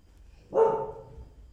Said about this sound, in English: He rarely barks, so there must be something.